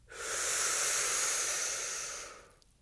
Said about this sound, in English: Stretching, taking your time. Inhale through your mouth.